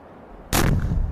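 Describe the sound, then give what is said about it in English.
A landmine deliberately detonated by a minesweeper tank goes off in a single loud, deep blast. It cuts in abruptly after near silence and leaves a heavy low rumble to the end. “I think they are intentionally triggering the mines to remove them from existence. Look at the machine.”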